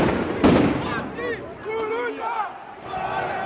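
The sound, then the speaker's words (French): Riot sounds as bank windows and marble are smashed with sledgehammers: one loud crash near the start, followed by a crowd shouting and yelling. “Et là, on entend le bruit de vitres qui sont brisées à coups de masse. C'est comme d'habitude des banques. C'est le bruit de marbre qui sont cassés pour faire des projectiles contre les policiers.”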